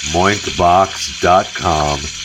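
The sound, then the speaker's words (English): Moink bacon sizzling as it fries, a steady, bright hiss running throughout beneath several voiced, humming sounds. “You know what that is? That is Moink Bacon.”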